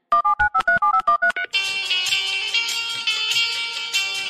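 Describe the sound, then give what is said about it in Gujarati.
A telephone is dialed with a quick run of about nine or ten short, bright keypad tones, then a steady, loud musical ringback tune plays on the line until the end. “લગાડ ને એને phone લગાડ”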